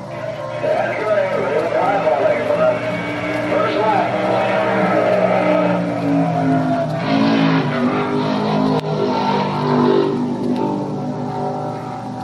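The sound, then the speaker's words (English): Stock race car engine roaring through a qualifying lap for a 500-mile stock car race, car number 65: a loud, sustained, harmonic drone whose pitch shifts repeatedly as the car accelerates and backs off. “That was the sound of my Woods brother, 65, during my two laps of qualifying for the Riverside 500 stock car race. You can hear it during almost an entire lap.”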